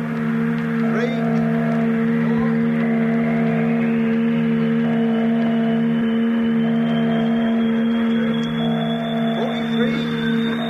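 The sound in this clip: A steady, droning motor hum with layered tones runs without a break. It comes from an engine started with a flywheel, running aboard a craft flying at high altitude.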